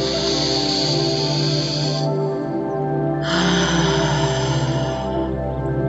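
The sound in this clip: A deep breath drawn in during a guided womb meditation on connection with nature, a loud airy hiss over a steady low musical drone, broken by a short pause before the breath continues.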